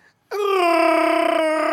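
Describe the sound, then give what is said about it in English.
A voice imitates a Sasquatch call with one long, loud, wailing howl that holds a steady pitch with a slight waver for about a second and a half. “Do you guys know what noise the Sasquatch makes?”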